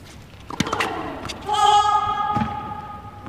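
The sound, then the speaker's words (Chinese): Tennis ball bounced on the court before a serve at the start of the second set of a professional women's match: a few sharp, hollow thuds, spaced unevenly, over faint background noise. “第二盘啊，由约维奇先来发球。”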